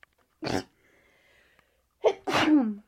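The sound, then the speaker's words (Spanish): A single human sneeze: a short breathy burst first, then after a pause a loud voiced sneeze with a sharp onset and a falling tail, over faint hum and no speech. “es que estornudé”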